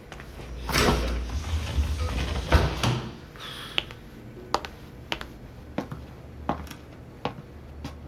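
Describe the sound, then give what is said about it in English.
A storage door slides open with a rumbling, scraping roll, followed by several sharp, isolated clicks and knocks spaced out in a quieter stretch. “There was nothing in the freezer, so I'll have a look in the storage. Could you open it, please?”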